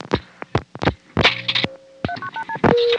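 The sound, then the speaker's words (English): Touch-tone telephone dialing: a few sharp clicks and thumps, a sustained tone, then a quick run of four short dual-pitched beeps followed by a louder burst and a steady tone. “Let me try dialing 0 plus a number. 212.”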